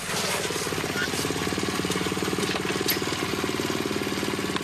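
A small motorbike engine revs continuously as the bike rides and turns around a driveway, a loud, rough, buzzing drone that holds steady throughout with slight fluctuations.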